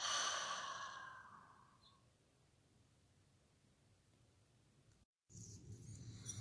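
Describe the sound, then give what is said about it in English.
A deep exhale through the open mouth, one breathy rush that starts fairly loud and fades over about two seconds into near silence. “Final deep inhale. Releasing any stagnant energy. Exhale, open the mouth, let it go.”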